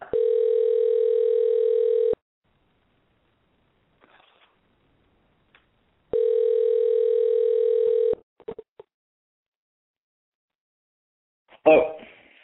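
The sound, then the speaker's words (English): Telephone tones while dialing out to a 323 area-code number: two long, steady, loud buzzing tones of about two seconds each, separated by silence, followed by a few faint clicks and a short rustling noise at the end. “Maybe I have to call them. I'm going to dial out and call you, 323 person.”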